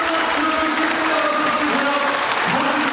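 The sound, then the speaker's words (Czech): An awards ceremony audience applauds a newly announced winner with a steady wash of clapping that stays loud and even for about three seconds. “Velký potlesk, velké gratulace.”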